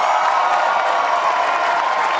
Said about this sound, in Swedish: Vänsterpartiets Nooshi Dadgostar möttes av vrålande jubel i sitt tal efter ett halvdåligt rim.